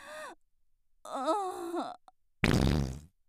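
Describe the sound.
A fart near the end, a short, buzzy, broad burst under a second long, preceded by two drawn-out moaning, groaning vocal sounds.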